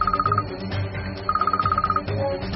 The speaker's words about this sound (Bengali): জিশানের satellite ফোনটা বেজে উঠল